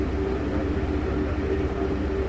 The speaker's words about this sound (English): In fact, the engines are accelerating now, and this is our takeoff.